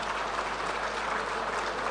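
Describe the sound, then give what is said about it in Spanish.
Dense, steady applause from an audience in a chamber as a speaker closes, a continuous wash of many hands clapping at an even level for two seconds, with no voices standing out. “Este aplauso es para ustedes.”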